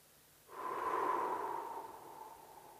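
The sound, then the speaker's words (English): A slow exhale through the mouth during a guided breathing exercise: a soft, airy whoosh that begins after a moment of quiet, swells quickly, then tapers gradually over about two seconds. “Sip the air in. Pause gently at the top. Try to relax the shoulders down. 3. And then exhale out of the mouth.”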